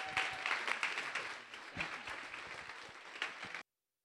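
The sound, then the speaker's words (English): Congregation in a church giving a standing ovation, a soft wash of applause with distinct scattered claps that eases slightly and then cuts off abruptly. “Standing ovation.”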